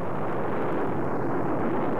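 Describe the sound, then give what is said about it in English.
Roar of a Titan rocket launching the Gemini Titan 3 two-man spaceflight: a dense, steady, low rumbling roar fills the whole short stretch without a break, with no voices. “But now, finally, with a Titan's roar, we shoot our first two-man team into space.”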